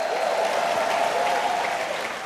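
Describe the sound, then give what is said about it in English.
A church audience applauds with a dense, continuous wash of clapping that stays loud and even, easing slightly at the end. “If you believe it, give the Lord the greatest hand clap and shout that you've ever given anybody.”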